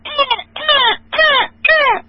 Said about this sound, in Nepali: त्यहाँदेखि कागको अनि फेरि अर्को कागको